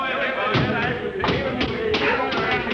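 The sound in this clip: A few heavy thuds from a person landing after a six-foot drop onto a hatch, each a dull impact standing out from a steady, loud background noise.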